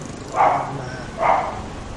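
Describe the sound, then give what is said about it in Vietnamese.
A dog barking at home: two short, mid-pitched barks about a second apart, each standing clearly above a low background hum. “Xin lỗi quý vị. Xin lỗi con chó ở nhà.”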